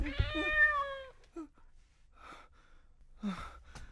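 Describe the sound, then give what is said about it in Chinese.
A cat gives one drawn-out, tonal meow that bends in pitch, followed by a few quieter breathy sounds. “点解无啦啦有只猫噶？”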